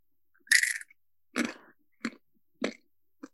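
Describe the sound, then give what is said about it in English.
Close-up crunching of large salted Peruvian corn kernels being chewed: five loud, crisp bites and crunches in an uneven rhythm, separated by short silences, with no talking. “These are huge. They're like way big corns. Called a corna. I'm going to get right into my mic and do some ASMR.”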